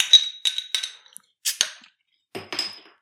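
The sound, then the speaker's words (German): Metallic clicks and clinks from a bottle opener working the cap off a bottle of Spezi soda: a few sharp, bright ticks and scrapes, then a brief broader burst near the end. The sounds are quiet, with no talk. “ich mach direkt äh, hier eine Spezie auf”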